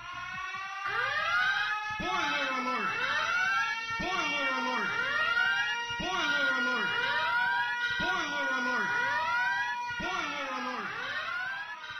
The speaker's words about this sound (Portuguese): roda alerta de spoilers aí.